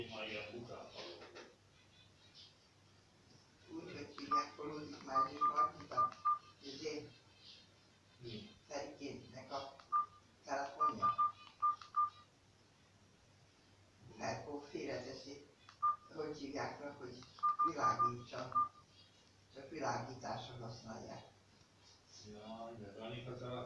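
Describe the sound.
Telephone keypad tones beep in three short runs of rapid presses as a number is dialed on a phone that will not accept it, the tones sounding under continuous talk from a person.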